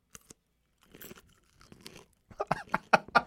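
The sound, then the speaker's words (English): Crunchy pickles being bitten and chewed, starting with faint crisp ticks and building to a run of loud, wet crunches near the end, with no talking over them. “I brought some pickles for us to eat here on the air. For everyone out there who's into ASMR, we might be eating pickles a bit here.”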